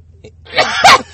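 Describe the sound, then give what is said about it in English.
A sneeze blended with a laugh bursts out in two quick, loud breathy blasts after a faint lead-in, with no other sound around it. “Was that a sneeze? That's like a sneeze laugh.”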